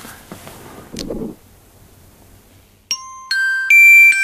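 A train station announcement chime at a main station: three bright tones sound one after another and ring together near the end, following quieter handling and rustling noises.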